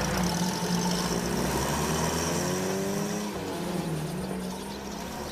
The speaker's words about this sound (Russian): Папа садится в машину. Поехали. Автомобиль трогается.